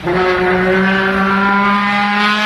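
A trombone imitating motorcycle engine noises: one loud, sustained, buzzy brass tone that holds a steady pitch with no backing sound for about two and a half seconds.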